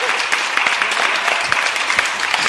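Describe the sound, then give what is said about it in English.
Studio audience applause at a live recording, a dense, steady wash of many hands clapping that fills the whole clip without pause. “Monster of the Week is filmed before a live studio audience.”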